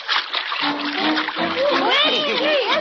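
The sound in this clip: Splashing water of someone swimming fast, a steady churning splash throughout, with warbling tonal sounds that sweep up and down over it from about the midpoint.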